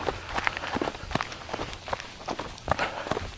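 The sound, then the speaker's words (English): Footsteps of trail running shoes with lugs on the soles, clicking on each step while walking, with a bit of bounce. The steps are many, crisp and evenly spaced in a steady rhythm, with no talking. “My shoes have a little bit more pitter-patter, click-clack as well, because I'm not using my Brooks.”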